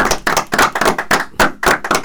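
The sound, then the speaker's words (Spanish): Hands clap in a quick, steady rhythm after a student answers questions on a school radio programme: a string of sharp, even bursts lasting about two seconds, with no voices over them. “Mira, qué bien, un aplauso.”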